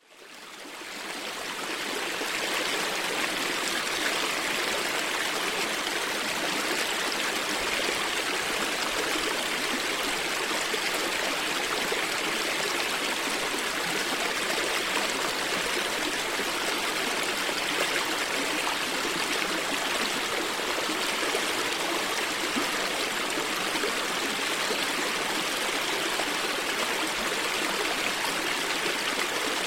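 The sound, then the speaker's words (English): Rushing water of an alpine stream flowing out of a meadow in California's Sierra Mountains: a loud, dense, constant roar that rises quickly at the start and then holds steady with no other sounds breaking through. “Next, we have an alpine stream emptying out of a meadow in California's Sierra Mountains. Like the arcade, this is loud and constant, and there is very little room left for quieter sounds to be heard.”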